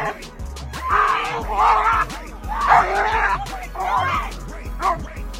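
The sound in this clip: A dog yelping and whimpering while being hit in a park. Several sharp, loud bursts of yelps and cries come in a rough rhythm, mixed with agitated human voices.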